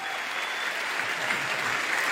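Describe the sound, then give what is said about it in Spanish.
A church audience applauding, dense steady clapping that carries evenly through the whole stretch with no voices over it. “Damos un aplauso grande al Señor por Marcos, sí, por hacer el esfuerzo con su rodilla.”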